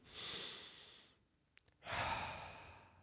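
A slow, meditative breath is drawn in softly for about a second, followed by a short pause with a faint click, then a longer, gentle breath out of similar quiet loudness.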